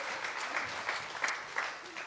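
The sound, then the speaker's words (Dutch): Applause welcomes a group of seven invited friends onto a stage: steady, fairly quiet clapping from an audience, continuous throughout with a few slightly louder swells. “Please give them a hand. Geef ze een applaus.”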